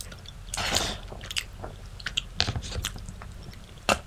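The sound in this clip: Pesto pasta from a to-go container being chewed with soft, moist mouth sounds and a few sharper clicks and smacks, all faint, with no talking.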